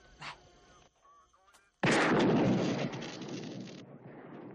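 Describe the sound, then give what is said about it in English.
A single loud gunshot fired into a police car radio, hitting suddenly after faint quiet rustling. The sharp blast is followed by a harsh, noisy roar that holds for about two seconds, then drops to a lower hiss. “Shoot the radio.”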